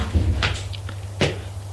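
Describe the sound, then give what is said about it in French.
Two dull knocks on a door, less than a second apart, over a low steady hum. “On frappe à la porte.”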